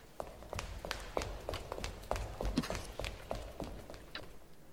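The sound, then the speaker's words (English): Footsteps of a man hurrying down a pathway: many quick, light steps in a fairly regular rhythm, faint and heard alone. “Yes, and here comes a man hurrying down the pathway. Quick! Behind this post! Listen!”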